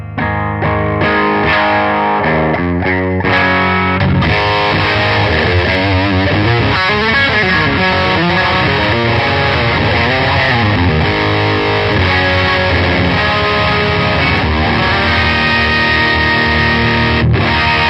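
Electric guitar played through an overdriven distortion effects pedal. Loud, sustained, saturated chords and melodic lines ring out continuously for about eighteen seconds, with brief gaps between phrases early on and no talking.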